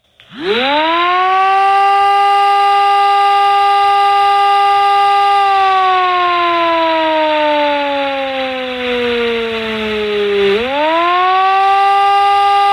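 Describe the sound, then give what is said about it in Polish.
Loud modulated civil defense alarm siren sounding an alert: a steady, harmonic-rich wail climbs to full pitch, holds, slowly sinks for several seconds, then winds back up again, with no voices. “czyli alarm, który mówi o ogłoszeniu alarmu, jest to dźwięk modulowany, i odwołanie alarmu, który stanowi dźwięk ciągły, jednostajny, oba trwają 3 minuty. I tutaj, jeżeli mogę zaprezentować, dźwięk modulowany brzmi mniej więcej tak.”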